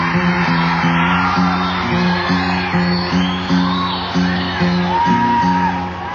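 Audience whooping and yelling late at night at a live show: scattered shouts and cheers over a crowd roar, with a steady, rhythmic musical pulse running underneath.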